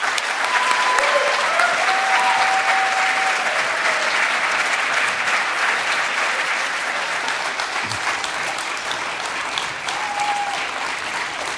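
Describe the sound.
Applause from an audience welcoming guests rolls on continuously, a full, dense patter of many hands clapping that stays strong and only eases slightly toward the end.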